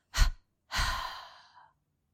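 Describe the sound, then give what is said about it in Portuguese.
Two breaths are pushed out through the mouth in a double exhalation during a muscle relaxation exercise: a short, soft puff, then a longer sighing exhale that fades away, with no talking. “Expira pela boca com uma dupla exalação, relaxando a musculatura do corpo.”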